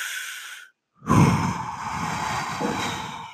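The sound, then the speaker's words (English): A slow breath and a long exhale, part of a calming breathing technique: a short airy breath, a brief silent pause, then a steady, soft rush of exhaled air that lasts a few seconds. “slow exhale, because that slow exhale tells your subconscious, your body, that you're not in danger.”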